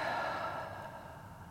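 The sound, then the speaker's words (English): A slow breath, soft airy rushing noise that gradually fades away over its length, with no talk. “So first I would like to invite you to take a breath. Maybe we can do that together. Breathing in and out.”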